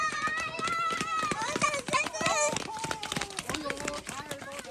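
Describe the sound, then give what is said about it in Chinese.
About ten children run down a hillside toward a car that has just stopped. Rapid footfalls patter continuously under overlapping, excited children's voices. “车子刚刚停稳，10来个身影就从山坡上冲了下来。”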